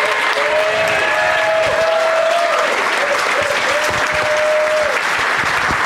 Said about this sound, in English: But you did a great job, Matt. Let's hear it for Matt.